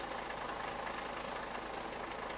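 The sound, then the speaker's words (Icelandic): A city bus engine idles in a faint, steady rumble with an even hiss, continuous and without voices. “Komum bara upp í strætó, setjumst aftast, ok?”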